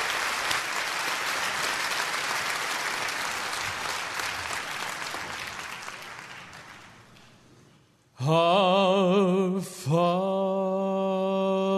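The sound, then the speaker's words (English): An audience applauds a singer being welcomed up during a worship service, the clapping gradually fading over several seconds before loud, sustained musical chords suddenly begin, briefly dipping once and then holding steady. “I want you to put your hands together and welcome Steve Amerson as he comes to sing for us today.”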